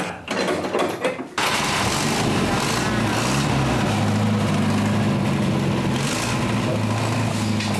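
A car engine starts and keeps running, a brief rough burst giving way to a steady, dense mechanical rumble with a rattling clatter that continues to the end.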